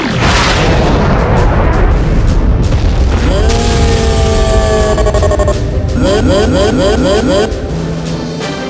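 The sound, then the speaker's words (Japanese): A sci-fi sonic wave cannon fires: a loud, deep rumbling boom, then sustained electronic harmonic tones and a rapid pulsing warble that carry on to the end. “ギギョラ波動音波砲発射準備。 エネルギー充填完了まで5、4、3、2、1、0。 発射。”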